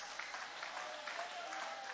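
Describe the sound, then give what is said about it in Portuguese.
Congregation applauding during a church service: faint, dense and steady clapping that runs evenly for the whole two seconds. “Levanta a mão e aplaude, levante a mão e aplaude.”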